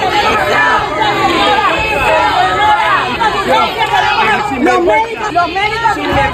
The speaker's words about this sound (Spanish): A su llegada para reunirse con el presidente ceutí, la esperaban algunos profesionales sanitarios entre abucheos.